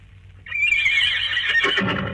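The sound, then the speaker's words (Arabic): A mare on a seashore whinnies in one loud, sustained neigh that starts about half a second in and holds strongly to the end, with no other sounds. “الله، ده صوت حصان، ولا انا بتهيالي؟”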